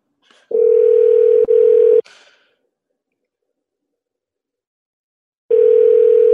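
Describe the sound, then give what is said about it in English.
Unanswered telephone call ringing out with no voicemail: a steady, mid-pitched electronic ring tone lasting about a second and a half, a long silence, then the same tone starting again. “No voicemail on this one. Phone just ringing somebody out of bed here.”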